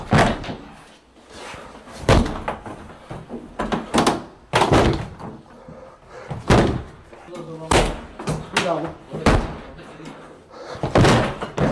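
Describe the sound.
Many heavy thuds and slams ring out at irregular intervals as a locked terrace door is broken open with shoulder blows and kicks, caught on a mobile phone camera, while people talk throughout.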